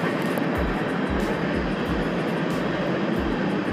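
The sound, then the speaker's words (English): A train passing, heard as a loud, continuous broad rumble with a regular pulse of low thuds about every half second throughout. “That's just the train. Choo choo! It might be going on for a while.”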